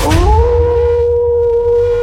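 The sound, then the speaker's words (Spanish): A wolf howl sound effect: a loud, sustained tonal cry that rises quickly at the start and then holds a steady pitch for about two seconds, heard alone. “Aquí comienza el aullido más poderoso de la radio.”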